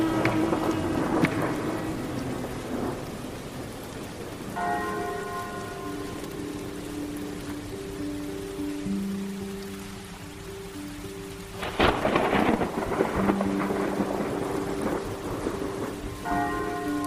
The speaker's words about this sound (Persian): با صدای رعد و برق و بارش تند بارون به خودم اومدم.